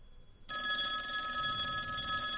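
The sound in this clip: A ringback tone on an outgoing call dialed to an iPhone: after a short quiet pause, a steady, buzzy electronic tone begins abruptly and holds unbroken at even loudness to the end.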